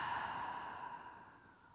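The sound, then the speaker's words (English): A single soft, breathy exhale during a guided breathing exercise, quiet and gradually fading away. “Inhale with me. And exhale.”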